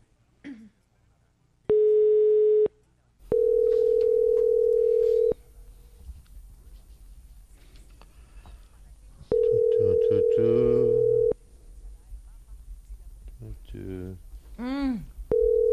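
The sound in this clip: Ringing tone of an unanswered phone call: three flat, steady tones separated by pauses of silence, the later two longer than the first. Voices and other sounds follow afterward.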